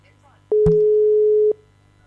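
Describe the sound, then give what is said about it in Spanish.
A single steady telephone tone lasting about a second signals a call that fails to connect, with a short low thump just after it begins. “te estamos llamando. Bueno, no se puede.”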